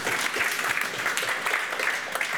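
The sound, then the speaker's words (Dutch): Audience applause breaks out during a talk program about elections: dense, steady clapping that holds at an even loudness throughout, with no clear pauses and no distinct voices on top. “ook laten we hem vooral aanmoedigen hierin. Applaus voor Jonathan.”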